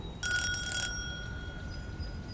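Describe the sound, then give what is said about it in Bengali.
Doorbell mounted outside a door rings once with a short, bright metallic trill lasting under a second, then a faint lingering tone over quiet background hum. “Bittu দরজার বাইরে লাগানো bell টিপল”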